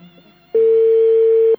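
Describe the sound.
A telephone ringing tone on an outgoing call: one steady, mid-pitched beep lasting about a second, loud and clean, after a brief stretch of faint low background.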